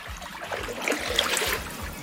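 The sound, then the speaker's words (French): Someone rows a boat on water, making a faint series of rhythmic oar strokes over a steady background of trickling and lapping water. “Alors il y a de l'eau évidemment. L'eau, on l'entend, mais c'est bien quelqu'un qui rame.”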